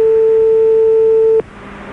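A telephone ringback tone on a call to a listener: one loud, steady electronic tone held for over a second, then abruptly cut off, leaving a faint low hum.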